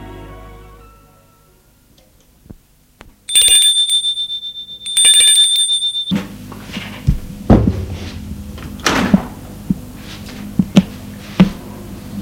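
Doorbell ringing at a house door: two bright, ringing electric bell bursts, the second longer, followed by scattered thuds and shuffling.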